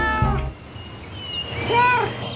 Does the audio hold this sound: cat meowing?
yes

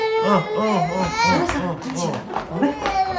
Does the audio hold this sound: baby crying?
yes

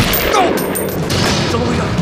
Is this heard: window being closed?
no

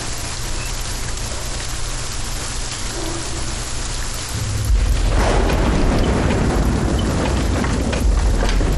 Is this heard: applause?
no

